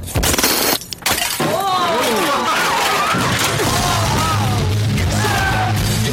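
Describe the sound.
Glass shatters in a video game: a loud, sharp crash at the start, then sustained dense noise with scattered chirping tones.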